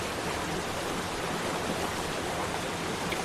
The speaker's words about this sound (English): The water is quite loud, yes.